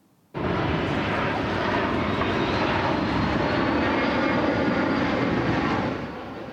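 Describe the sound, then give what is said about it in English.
Loud, steady engine roar from firefighting aircraft flying over a wildfire near White Lake, east of Horseshoe Bay, starting abruptly and holding as a dense, unbroken drone before easing slightly at the end. “we've seen about a dozen aircraft looking to just try to extinguish this the fire as quickly as possible.”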